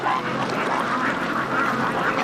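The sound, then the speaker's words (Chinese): Many ducks quacking together on a duck farm, a dense, continuous chorus of overlapping quacks that holds at a steady loudness with no pauses and no voices. “百干村这个鸭子养得太好了”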